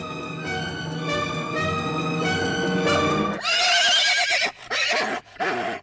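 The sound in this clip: A brown horse neighs loudly, a long, quavering whinny followed by a couple of shorter, broken bursts.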